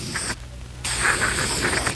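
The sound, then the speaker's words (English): An aerosol can of Otis bathroom cleanser sprays onto a bloodstain in two hissing bursts: a short one, a brief silence, then a longer, steady spray. “A fresh can of Otis bathroom cleanser. All right, let me have it. Now watch. I spray it on the bloodstain.”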